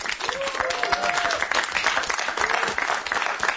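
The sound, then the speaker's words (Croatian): Studio audience applauding at the end of a show: dense, loud, continuous clapping that holds steady throughout. “I za sam kraj, dajte aplauz sami sebi, bili ste divna publika.”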